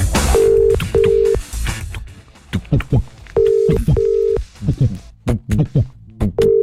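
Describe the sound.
An outgoing telephone call rings back with a steady mid-pitched tone in short double bursts, repeating at regular intervals while people talk loudly over it.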